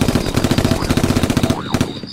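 Machine-gun fire in a radio drama rattles out as a fast, unbroken stream of loud, evenly spaced shots, thinning slightly just before the end.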